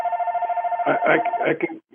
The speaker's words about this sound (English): Is that your phone ringing? Not my phone.